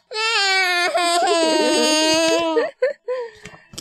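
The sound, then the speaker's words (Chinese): A voice acts out a sad little tadpole's crying in a children's story. One long, high, wavering wail is followed by a few short broken sobs. “说完，他伤心的哭了起来。”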